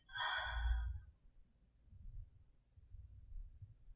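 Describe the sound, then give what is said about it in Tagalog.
A deep breath taken in and out during a relaxation exercise, heard as one soft, breathy sigh at the start, then near quiet with only a faint low rumble. “Malalim na hinga papasok at palabas.”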